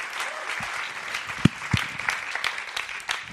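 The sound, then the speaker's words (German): A church audience gives strong applause during a service: dense, steady clapping throughout, with a few sharper, louder claps standing out from the wash. “Lass uns Ihnen mal einen kräftigen Applaus geben.”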